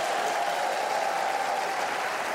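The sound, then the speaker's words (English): Crowd applause welcoming a seven-member band: a thick, continuous wash of clapping at a steady, fairly loud level through the whole short stretch. “Here now are Mark Hall, Juwan DeVivo, Josh Mix, Melody DeVivo, Megan Garrett, Chris Huffman, and Brian Scoggin, better known as Casting Crowns. Give them a hand as we welcome them.”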